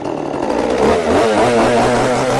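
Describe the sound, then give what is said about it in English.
A chainsaw engine revs loudly in blistering sun above 90 degrees during cleanup of fallen trees, giving a continuous buzzing whine whose pitch wavers and shifts as the throttle changes, with no voices. “Two blocks away, Steve Mickelson of Amherst revs up his chainsaw in the blistering sun with the temperature already above 90 degrees.”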